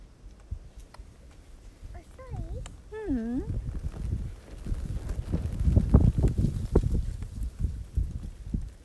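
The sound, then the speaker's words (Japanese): Wind blows outdoors on a summer day, buffeting in low, rumbling gusts that grow stronger in the second half, while voices talk briefly earlier on. “風が吹くと涼しいね風が吹くとさ涼しいね”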